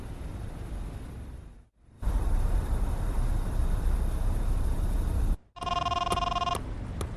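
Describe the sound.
An electronic telephone ring, a short bright trilling burst, sounds loudly near the end after several seconds of steady loud hiss, with quieter noise after it.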